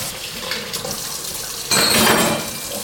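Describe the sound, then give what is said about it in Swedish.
Sticky kitchen utensils are rinsed under a running tap, with steady water noise and light clinks of metal and dishes; the water rushes louder for a moment in the second half. “Så, nu sköljer jag de här kladdiga redskapen.”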